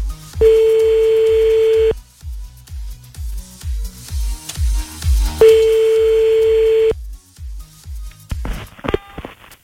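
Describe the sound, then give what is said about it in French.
Telephone ringing for an outgoing call: two long, steady buzzing ring tones separated by a pause, over a regular low thumping beat, followed by a brief burst of electronic dialing tones at the end. “Bon, j'appelle un autre en même temps.”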